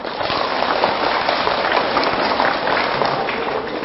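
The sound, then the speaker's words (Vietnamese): Loud, sustained applause from an audience: a dense, even patter of many hands clapping with no pause. “Nếu thích thì phải dành một tràng vỗ tay thật lớn”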